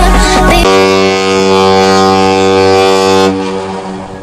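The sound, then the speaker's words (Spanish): A deep cruise ship horn sounds at the port of Melilla in a single loud, sustained, steady blast of nearly three seconds, preceded by a low rumble and followed by a fading tail. “Y este es el sonido de la vida de la radio, el sonido de la vida en Melilla en estos días. Hoy es el segundo día de llegada de cruceros a nuestra ciudad.”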